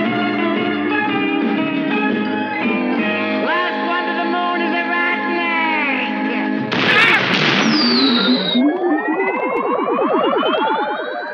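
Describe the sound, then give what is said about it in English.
Sci-fi flying saucer blasting off and rising into the sky: layered electronic warbling tones give way to a sudden noisy burst, then a sweeping tone climbs steadily in pitch, loud throughout. “They hear a strange sound and look to see the flying saucer rise and disappear into the sky.”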